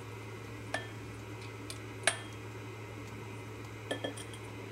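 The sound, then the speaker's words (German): Flour is stirred into cake batter in a bowl. A few sharp, bright clinks ring out against the bowl over a steady low hum, with quieter ticks in between. “Und jetzt wird das Ganze wieder gut durchgerührt. Aber Kuchen, wir wollen es nicht zu hart, nicht zu zäh haben, also Mehl nicht zu lange unterrühren.”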